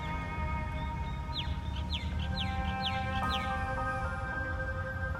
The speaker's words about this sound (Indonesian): resapi kicau burung yang terdengar, nikmati momen yang agung ini.